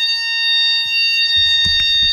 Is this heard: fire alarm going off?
yes

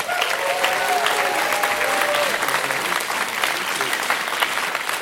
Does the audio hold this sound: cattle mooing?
no

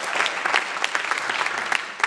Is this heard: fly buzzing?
no

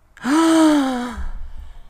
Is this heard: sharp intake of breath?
yes

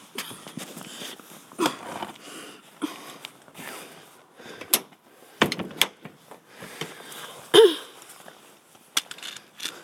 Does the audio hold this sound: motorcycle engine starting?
no

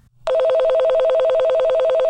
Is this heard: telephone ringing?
yes

